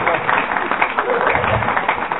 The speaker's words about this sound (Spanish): Pues señores, es lo que queríamos saber, porque tenemos un gracias, un aplauso.